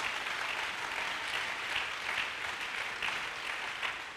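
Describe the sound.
A church audience applauding and cheering for the Lord during a sermon, a dense continuous wash of clapping with faint swells of voices, steady and moderately quiet throughout.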